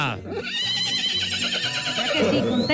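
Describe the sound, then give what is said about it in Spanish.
A mare neighs in a rural mountain farm setting, giving one long, wavering, high whinny that fills nearly three seconds and stays loud throughout. “A ver, ¿cómo es que llama esta yegua? ¿Cómo es que le pusimos?”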